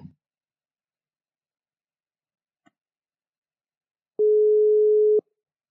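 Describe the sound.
The ring-back tone of an outgoing telephone call: a brief click, a long silence with one faint tick, then a single steady mid-pitched tone lasting about a second.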